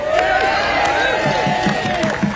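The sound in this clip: Crowd noise at a rally in Adelaide: a dense, continuous wash of cheering voices and clapping that stays steady and loud throughout.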